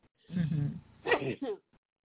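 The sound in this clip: A short, sharp sneeze bursts out amid brief voiced sounds.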